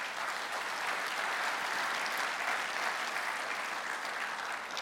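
A church audience claps their hands during a morning service, a dense, continuous wash of applause that holds steady at an even level for the whole stretch.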